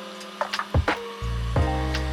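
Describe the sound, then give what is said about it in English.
A heat gun kicks on after a few brief knocks and blows hot air over a piece with a steady, loud, buzzing motor drone. “A little bit of a heat gun action again.”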